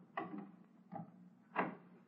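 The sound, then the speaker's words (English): A door being opened in an old detective mystery scene: three soft wooden clunks and rattles spread across two seconds, quiet, with the last the strongest. “And it won't be pleasant, I warn you. And let me get this door open.”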